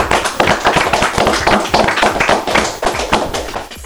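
Applause from a small studio audience, a dense patter of many quick hand claps that runs steadily throughout at a moderate level.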